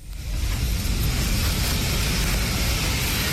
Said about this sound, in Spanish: Así sonaba dentro del avión.